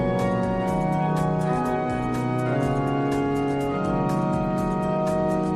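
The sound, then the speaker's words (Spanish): The restored Epistle pipe organ of Granada Cathedral, rebuilt from more than 3,000 dismantled pipes, sounds a loud, full, sustained chord. Rich steady tones hold throughout while lower notes shift beneath them, with no voices. “El órgano de la Epístola de la Catedral recupera su voz original después de la restauración de 4 años con fondos públicos. Esta semana era bendecido con la asistencia de autoridades eclesiásticas y políticas. Entre otras actuaciones, se desmontaron más de 3.000 tubos y ya restaurado suena así.”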